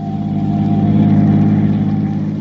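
Car engine running while driving on a road, a loud, steady low-pitched hum with a smooth, unchanging drone and no voices.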